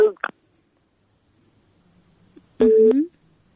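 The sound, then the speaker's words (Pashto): A telephone tone sounds once as a call-in line is cut off. The single steady beep comes near the end, after a few brief clicking sounds at the start. “بلی لیکه یې پریښله. نه پوهېږم چې په تلیفون کرخه کې څه ستونزه ده خو اړیکې پرې کیږي.”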